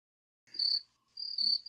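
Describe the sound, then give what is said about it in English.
A cricket chirping sound effect plays as two short bursts of high, buzzy trilling with a brief pause between them. The bursts are quiet and heard alone. “Okay, that's enough crickets.”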